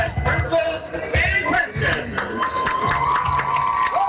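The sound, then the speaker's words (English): A crowd at a high school homecoming ceremony cheers and applauds, loud whoops and high shouts rising and falling in repeated bursts over a bed of clapping, with excited voices calling out throughout. “Ladies and gentlemen, let's give a big round of applause for our 2026”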